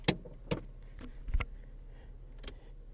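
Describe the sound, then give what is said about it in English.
Low, steady road rumble inside a moving car, with a few sharp knocks and clicks, like handling noise from a hand-held microphone, over the drone. “So you're going to hear some driving noises as we go.”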